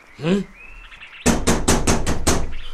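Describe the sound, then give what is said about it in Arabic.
Knocking on a door: six quick, evenly spaced, loud raps follow a short spoken utterance. “من الطارق؟”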